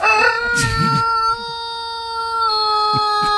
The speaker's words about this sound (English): That's an actual rooster crowing every single day.